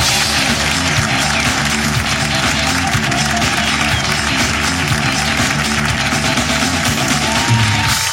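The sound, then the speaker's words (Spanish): A studio audience at a live improv comedy show applauding and cheering: dense, continuous clapping mixed with whoops, loud and steady throughout. “Ese aplauso, porque estos son los últimos papelitos del público por Hablando Huevadas 2024.”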